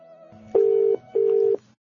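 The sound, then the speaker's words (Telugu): A phone call being placed to a teacher: two long, steady, mid-pitched ringing tones with a short gap between them, loud and clear over a faint low background. “So ఇప్పుడు ఆవిడకి phone చేద్దామా? ఖచ్చితంగా చెల్లి, phone చేయి.”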